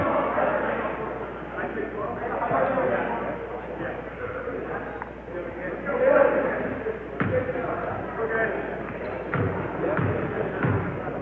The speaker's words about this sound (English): Amos, 3 dribbles, spins the ball in his hand twice.